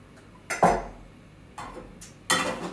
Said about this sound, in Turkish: Bence tava düştü yere ya.